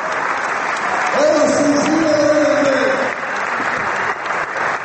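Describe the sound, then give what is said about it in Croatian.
A Belgrade audience applauds steadily as the Split team is seen off after a 5-3 match. The applause stays dense and even throughout, and a voice briefly rises over it. “ono što će se sigurno najduže pamtiti je aplauz beogradske publike kojim su ispraćeni Splićani”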